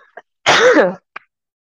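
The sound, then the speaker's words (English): A woman gives one short, harsh cough, loud and alone against silence. “as she coughs up.”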